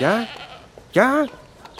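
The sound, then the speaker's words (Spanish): A goat in Senegal bleats twice: two loud, wavering, nasal cries separated by a short pause, the second slightly louder and longer than the first. “el chivo más famoso de Senegal”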